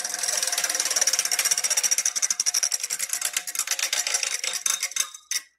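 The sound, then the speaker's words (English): A white prize wheel spins, its pointer clicking in a fast, dense rattle that gradually slows into distinct, spaced ticks before stopping. “Spin the white wheel.”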